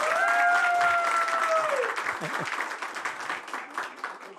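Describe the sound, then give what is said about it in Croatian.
Audience applause for an evening TV show, a dense, loud wash of clapping with a sustained whistle over the first two seconds that dips and fades, the clapping thinning slightly toward the end. “Dajte jedan veliki aplauz za emisiju večeras.”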